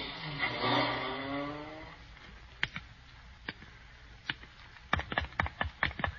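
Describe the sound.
A taxi cab's engine revs and pulls away, a rough droning roar that fades within about two seconds, followed by a scattered series of sharp clicks and taps.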